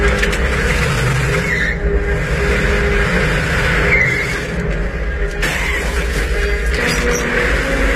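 A car being driven off a ferry into the sea, heard as a loud, steady engine and road roar that runs without a break for the whole eight seconds, with no voices.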